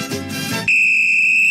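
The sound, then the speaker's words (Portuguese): A referee's whistle opens play at a football match: after a brief burst of louder, noisier sound, one long, steady, shrill blast holds at an even pitch and stays loud to the end, with no voices. “E apita o árbitro e a bola tá rolando pro segundo podcast Leriado FC.”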